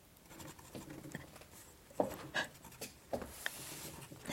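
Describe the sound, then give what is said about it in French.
A pencil scratches across a sheet of paper, held by trembling hands, making faint, irregular strokes with a few sharper scrapes. “Prends le crayon et écris sur la feuille de papier.”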